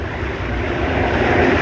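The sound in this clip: A running engine gives off a loud, continuous low rumble with a broad rushing hiss, steady throughout with no talk over it.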